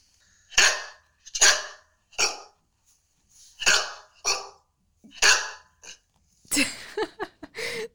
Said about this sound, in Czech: aby tady nebyla jenom přání a poděkování od lidí, tak posílám jedno speciální psí